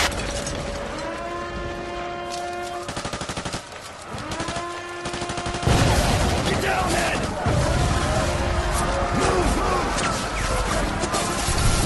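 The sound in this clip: Sustained, rapid gunfire from an attacking Soviet force bombarding the planet: a dense, continuous rattle runs throughout, dips briefly near the middle, then surges louder.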